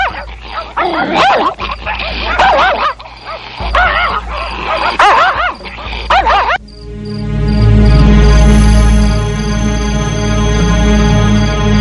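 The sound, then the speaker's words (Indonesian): A fierce village dog barks at passersby in a rapid, loud, repeated series of barks. It then stops abruptly, leaving a steady chorus of chirring crickets and insects alone. “ana asu galak.”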